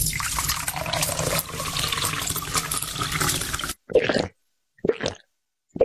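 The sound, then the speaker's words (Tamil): Cold spiced buttermilk, neer mor, is poured for a tired visitor: a steady splashing pour of liquid for about four seconds, then silence broken by two brief separate bursts of sound. “ஐயா, நீங்க களைப்பா வருவீங்கன்னு தெரிஞ்சுதான் குளிர்ச்சியான நீர் மோர் தயார் பண்ணி வச்சிருக்கேன். இந்தாங்க ஐயா, குடிங்க ஐயா.”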